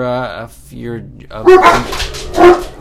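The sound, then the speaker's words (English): Several dogs barking, two strong barks standing out in the second half after softer, higher whining sounds, with people talking. “We apologize for the dogs.”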